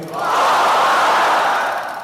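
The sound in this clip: A crowd at a peaceful protest rally shouts takbir, Allahu Akbar, in one loud, sustained roar of many voices that swells and then fades slightly over about two seconds.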